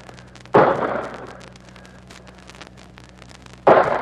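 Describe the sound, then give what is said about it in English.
Two sharp, booming mortar blasts from a regiment firing mortars in a foggy valley. The first comes early and the second about three seconds later, each decaying quickly into quiet rumble, with no voices. “65th Puerto Rican Regiment is firing mortars.”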